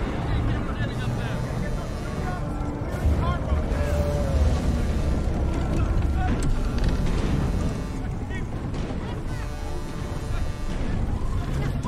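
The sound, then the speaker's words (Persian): A monstrous ship approaches with a dense, continuous roaring rumble, loud and heavy throughout, with harsh horn-like blasts breaking through the din. “اون کشتی هیولایی که میگفتی بالاخره اومد سراغمون.”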